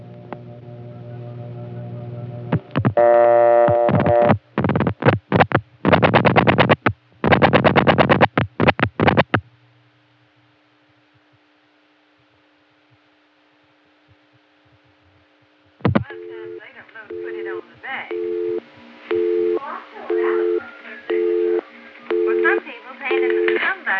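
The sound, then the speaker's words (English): A 1978 Atlanta telephone busy signal, reached from a step-by-step line calling a PBX on an ESS office, pulses in even on-off beeps with room conversation leaking through. Rapid dial clicks and a long silent gap come first. “everything that's said in the room gets broadcast over the busy signal. Here's an instance of it from Atlanta, 1978, dialed from my 87 step line to a PBX homing on the Buckhead ESS”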